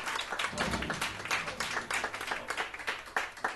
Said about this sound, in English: Let's give it up for Sylvia, for our radio audience.